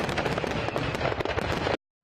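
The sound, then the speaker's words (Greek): Fireworks bursting over Washington, D.C., at the close of a ceremony with military jets flying over the White House: a dense, loud, continuous crackling and popping barrage that lasts under two seconds, then cuts off abruptly. “χιλιάδες πυροτεχνήματα να φωτίζουν τον ουρανό της Ουάσιγκτον”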